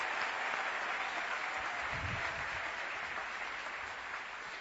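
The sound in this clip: An audience at a Christian worship service applauds and cheers, with dense, steady clapping that holds at an even level throughout and fades slightly at the end.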